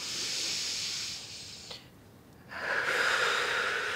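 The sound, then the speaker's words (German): Breathing in through the nose to calm a panicked patient at a medical examination: two soft, hissing nasal breaths separated by a quieter pause. The second breath is louder and fuller. “Lassen Sie uns mal gemeinsam durch die Nase einatmen, ja? Und nochmal.”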